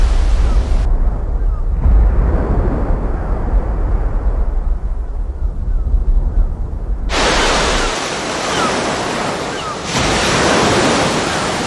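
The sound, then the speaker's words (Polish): Ocean waves as they would sound on Mars: continuous surf noise, a muffled, dull rumbling wash for the first part, then turning bright and hissy with full breaking-wave texture for the remainder. “Posłuchajmy, jak słychać najpierw na Ziemi, a później jak słychać na Marsie właśnie odgłosy oceanu.”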